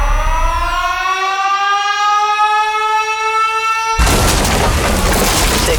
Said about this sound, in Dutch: Bom is ontploft.